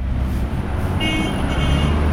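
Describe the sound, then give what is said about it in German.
Dense main-road traffic in La Paz, Bolivia, with minibuses, cars and taxis jostling across several lanes. A steady, loud rumble of engines continues throughout, and a brief horn tone sounds partway through. “Eine Hauptverkehrsstraße in der bolivianischen Andenmetropole La Paz. Auf mehreren Spuren drängeln sich Minibusse, Autos und Taxis aneinander vorbei.”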